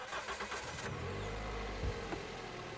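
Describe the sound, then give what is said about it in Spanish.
A car engine gives a low, fairly steady rumble that swells briefly near the end, faint beneath a broad, noisy background. “Menudo coche.”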